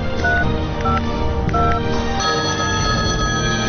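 A telephone keypad dialing a number, giving a quick series of short electronic beep tones in a steady rhythm over a busy background.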